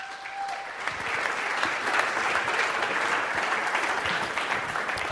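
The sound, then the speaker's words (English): Church audience applauding to welcome a guest speaker, a dense and steady patter of many hands clapping that builds quickly and holds at an even level to the end. “So could we give him a big hand?”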